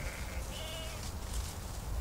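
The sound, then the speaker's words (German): Sheep from a shepherd's grazing flock give a few faint, wavering bleats over a steady low background rumble. “Der Schäfer verbringt die Nächte zu Hause, hütet seine Schafe und wandert mit ihnen tagsüber.”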